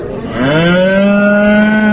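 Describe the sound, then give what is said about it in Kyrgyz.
A cow at a livestock market lets out a single long, loud moo that rises slightly as it starts, then holds a steady, deep, resonant tone to the end. “Эмне алып келдиңиз? Уй.”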